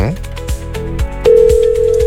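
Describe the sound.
A telephone line tone sounds as the phone starts working. A steady, loud, even-pitched tone switches on partway through and holds to the end, after a stretch of busier rhythmic sound.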